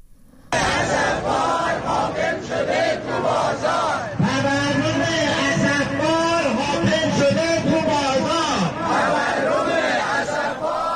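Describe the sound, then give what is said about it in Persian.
Retired protesters at a rally in Kermanshah chant loudly in unison. The crowd of voices rises in rhythmic shouted phrases and holds steady to the end. “صدای معترضان در تجمع در کرمانشاه رو شنیدید”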